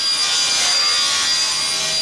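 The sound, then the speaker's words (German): Saws cut through wooden panels in a carpentry workshop, making a steady, bright, rasping hiss that runs without a break for about two seconds. No one talks. “Holzplatten gleiten durch die Sägen, Späne fliegen durch die Luft, Kantholzstücke werden verschraubt.”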